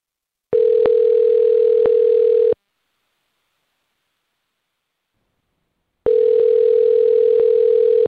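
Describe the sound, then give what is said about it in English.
A telephone line gives its steady tone while a call is being placed. Two long, even bursts of the tone, each about two seconds, are separated by a stretch of silence. “let's call Carmen and see if we can figure out what happened, okay?”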